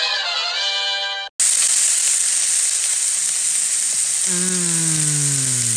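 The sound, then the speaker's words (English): Bacon fries in a pan with a loud, steady sizzling hiss that starts abruptly and continues without a break. “Why are you cooking bacon in front of me?”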